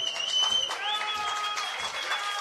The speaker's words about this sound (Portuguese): Portanto, a entrada de Diego é com alguma salva de palmas aqui.